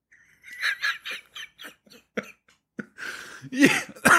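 A man coughs and clears phlegm from his throat in a string of short, dry coughs that grow into harsher, louder rasping hacks near the end.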